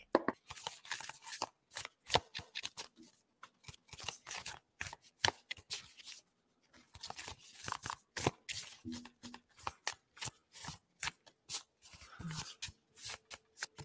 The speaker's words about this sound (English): And a card just flips out right here. So they're going to go into next deck.